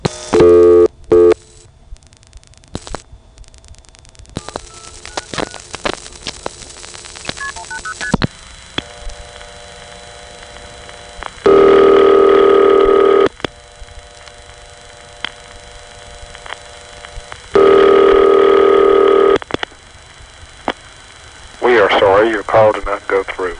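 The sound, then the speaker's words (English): Telephone signaling tones route an international call toward Monterrey, Mexico, through a Greensboro 4A switching office. Rapid beeping multifrequency bursts and long steady loud tones alternate with stretches of a voice talking. “Monterrey, Mexico, operators would dial 180 plus 83 plus 60. Since from here 180 goes through on just three digits, again the call gets stopped at the first office that would translate it, which in this case is the Greensboro 4A.”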